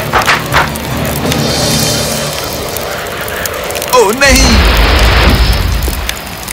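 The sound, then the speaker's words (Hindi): Firecrackers exploding in the sky: a few short cracks at the start, then a wavering whistle that swoops up and down, followed by a loud, sustained rumbling blast that fills the rest. “स्वेन ने अपने बक्से को पटाखों से भरा और ऊपर उड़कर गया उन्हें जलाने के लिए। ये बहुत ही सुंदर था, पर अचानक”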